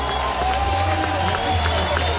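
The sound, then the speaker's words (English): Baseball crowd cheering and clapping a pitching change during a win-or-go-home game. The crowd noise is a moderate, continuous roar with a man talking over it. “Crowd loves it.”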